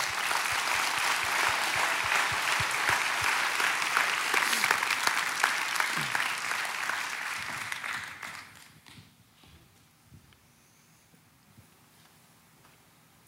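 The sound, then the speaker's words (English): A church audience applauds in a steady, dense roar of clapping. After about eight seconds the applause fades away to near silence. “y'all give them a big Gwinnett Church welcome.”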